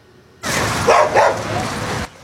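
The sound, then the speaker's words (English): Dogs bark at a public pool where they are cooling off in the water. Two short, loud barks stand out near the middle over a steady, broad hiss that starts and stops sharply. “We'll take a look at these pups cooling off in the pool.”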